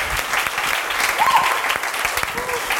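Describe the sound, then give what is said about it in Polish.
Warm applause for a pastor at a church gathering, steady and dense clapping from the audience that continues evenly throughout. “Dlatego zaklaszmy gorąco dla pastora Alka.”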